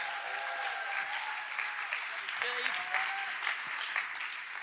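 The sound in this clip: An audience applauds to welcome a pastor to the stage, with steady dense clapping and a few whoops and cheers rising above it.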